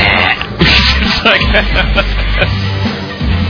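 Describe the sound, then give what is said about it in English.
Throat clearing into a microphone: a few loud, rough, raspy bursts of throat noise follow closely on one another. “as I'm clearing my throat into the microphone”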